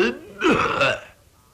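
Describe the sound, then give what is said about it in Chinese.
A performer's voice imitates an old, white-bearded man clearing his throat with one short, throaty cough-like grunt, loud and voiced, then tailing off to quiet. “陶福安那人稳当，手托着白胡，先咳嗽了一声”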